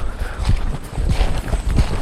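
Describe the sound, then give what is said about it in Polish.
Footsteps walking through the Amazon forest, a few heavy, even steps in a steady rhythm with low thumps and no talking. “Idziemy w tej chwili przez las. Wokół nas wszędzie już natureza, czyli natura. Natura Amazonii.”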